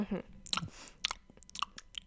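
Chewing on a Bounty chocolate bar served as dessert: irregular moist crunching and smacking bursts of varying loudness, close and fairly quiet.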